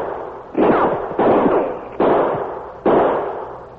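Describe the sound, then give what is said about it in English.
Four gunshots ring out from behind a big cottonwood tree. Each is a sharp, loud report with a long fading tail, and the shots come at uneven intervals with no voices between them. “The shots come behind that big cottonwood tree to the right.”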